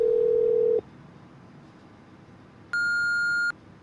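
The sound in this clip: Electronic phone tones sound as a call goes to voicemail: a steady low tone cuts off, then after a short pause a single higher, sustained beep follows.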